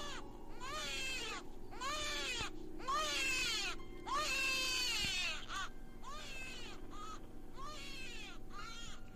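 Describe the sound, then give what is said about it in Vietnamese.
A newborn baby cries shrilly in many repeated, piercing wails with short gaps between them, loud and continuous across the whole stretch. “Ngay lúc này thì tiếng đứa trẻ sơ sinh vang lên đến chói tai.”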